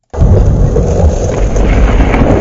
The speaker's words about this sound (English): That's the sound of a Saskatchewan storm system that brought funnel clouds, large hail, and winds strong enough to nearly knock over a grain bin.